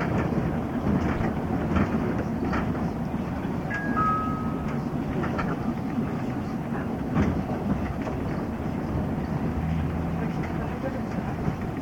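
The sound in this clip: Model train RQL309 running on its track with a steady, even whirring rumble and faint rhythmic clicking. Two brief high tones sound near the middle.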